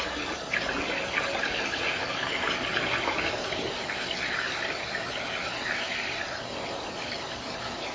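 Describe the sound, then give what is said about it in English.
Water runs from a tap while someone washes their hands, a steady continuous rushing hiss that stays even and unbroken throughout, with no voices. “I need to wash my hands.”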